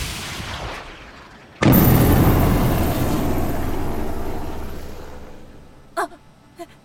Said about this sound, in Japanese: S671、被弾、対空ミサイルが直撃した模様です。